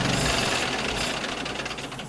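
A vintage car engine revs in an exhibition room with a dense, rumbling roar that stays loud and steady throughout and eases slightly toward the end.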